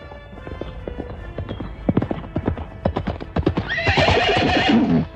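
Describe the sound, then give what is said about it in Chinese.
Horse hooves gallop as a cavalry rider arrives on a fast horse: many quick, sharp clip-clop beats in an uneven rhythm, growing louder. The run ends with a loud, shrill whinny. “当骑兵手骑着快马来到耶户跟前”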